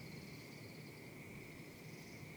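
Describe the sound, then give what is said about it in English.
Frogs chirp in ponds in a spring forest of pines and oaks in the foothills, forming a faint, continuous high trill that runs steadily without pause. “frogs chirping in the ponds”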